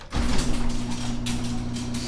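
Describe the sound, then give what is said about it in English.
A garage door opening: a motor starts abruptly and settles into a steady low hum with a faint rattling drone that continues to the end. “So I'm going to open the garage door here.”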